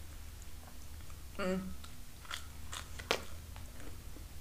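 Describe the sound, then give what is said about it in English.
Biting into and crunching cold toast: a single crisp crunch, followed by a few softer crackly clicks of chewing, all fairly quiet. “Okay, you ready? I'm gonna crunch.”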